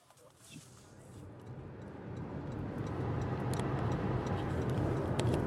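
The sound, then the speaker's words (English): A car's turn-signal blinker ticks in a steady, even rhythm as the car waits in a line of vehicles heading to public hearings, the faint clicks sitting under a low engine and road rumble that gradually grows louder. “I'm in a line of about 1, 2, 3, 4, 5, 6 cars. We've got our blinkers on and we're headed to the public hearings.”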